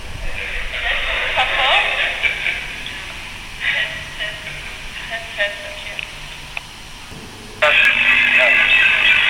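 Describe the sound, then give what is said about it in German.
Crackly, radio-like electronic noise from a homemade recorder built from an old keypad phone, a microphone and other scavenged electronic parts: hissy bursts broken by short gaps, then a louder, steady stretch of static near the end. “sozusagen Aufnahmegerät, aber zusammengebastelt aus einem alten Tastenhandy, aus einem Mikrofon und weiteren elektronischen Geräten, von denen ich gar nicht so genau weiß, was das ist. Und so klingt das.”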